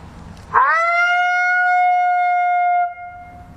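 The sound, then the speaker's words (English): A human voice imitates a lonesome female howl, softer and higher pitched: one long note that swoops up quickly at the start, then holds steady and clear for about two seconds before stopping abruptly. “just a lonesome howl. I can do maybe a female lonesome, so it's a little softer, a little higher pitch, and I'll just do that maybe two or three”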